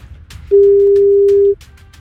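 A single steady ringback tone from an outgoing telephone call sounds once for about a second. It is a clear, mid-pitched, unbroken beep over faint background noise, with no talking.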